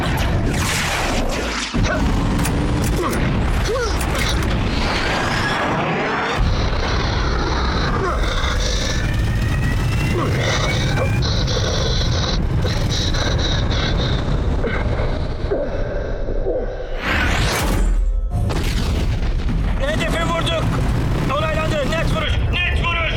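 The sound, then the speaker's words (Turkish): A bomb drops and explodes in a video game, heard as a dense, loud roar with rumbling, engine-like drones and heavy booms. Voices talk throughout. “Tamamdır, kilitlendim. Hedef belirlendi, bomba atıldı.”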